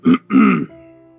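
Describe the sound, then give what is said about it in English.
Someone clears their throat in two short, rough bursts, the second longer than the first, and a faint steady tone lingers afterwards. “You hear the sound of someone clearing their throat, like.”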